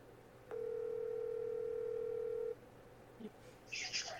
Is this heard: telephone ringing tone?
yes